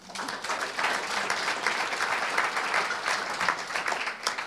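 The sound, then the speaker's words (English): Audience applause welcomes a four-person panel onto a stage: dense, steady clapping that holds at an even, fairly loud level throughout, with no voices over it. “Please welcome, give them a hand.”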